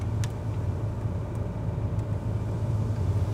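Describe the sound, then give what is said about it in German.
A car drives slowly along a road in Sweden toward a campsite, giving a steady low engine rumble. The sound is fairly faint and even throughout, with no talk. “Jetzt geht's zu unserem ersten Campingplatz. In Schweden fährt man langsam.”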